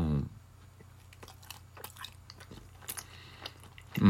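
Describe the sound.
A cheese-and-ham flavoured salty snack is chewed with a few quiet, crisp crunches and bites. Brief voices are heard at the start and end.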